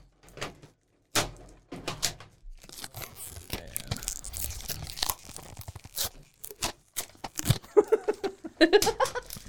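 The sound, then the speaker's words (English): Tape being peeled off an object: a series of crackling, tearing rips with short pauses between them, some quick and sharp, others drawn out. “I'm taking the tape off of this. Is it tape? Yeah.”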